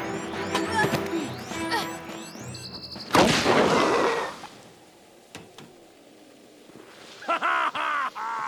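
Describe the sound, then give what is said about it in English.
A smoke bomb goes off in a video game: a sudden loud burst of hissing noise that fades over about a second, with other game sounds and effects before and after it. “Why didn't it explode? Because it's a smoke bomb.”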